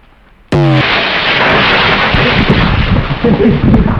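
An empty aerosol spray can being pierced: a sudden loud burst, then a strong, steady rushing hiss that carries on for several seconds.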